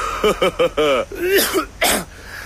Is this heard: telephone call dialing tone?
no